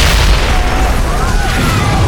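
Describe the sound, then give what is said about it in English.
An explosion on the road from a frontier town's main street up to the mines, strong enough to crack windows and raise a huge dust cloud, heard as a loud, sustained, dense low rumble throughout. “The power of the explosion cracked windows and sent some people stumbling off the boardwalk and into the street.”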